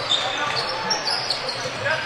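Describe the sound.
A basketball is dribbled on a court during a game, its bounces blending into a steady wash of court and crowd noise with no quiet gaps.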